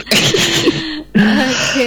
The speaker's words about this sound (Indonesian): Sorry agak batuk.